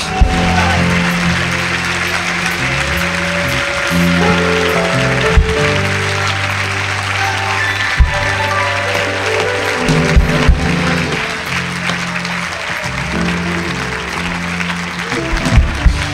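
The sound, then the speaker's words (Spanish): A church audience applauds with sustained, dense clapping over continuous music, and a few louder accents stand out amid the steady roar. “Si crees eso, dale un aplauso a la gloria.”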